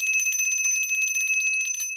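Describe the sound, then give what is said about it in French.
A small bell rings in a rapid, continuous trill for about two seconds, with bright, high, sustained metallic tones and many quick strikes. No other sound is heard. “Maudite clochette.”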